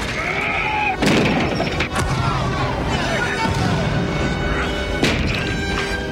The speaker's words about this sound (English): From far away, fire engulfs the Nakatomi roof. The helicopter is consumed. The fire hose wheel breaks free and slams against the roof edge.